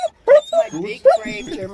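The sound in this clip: A frightened dog whimpers at the vet, letting out several short, high, whining whimpers and yips in a broken rhythm, some rising briefly in pitch.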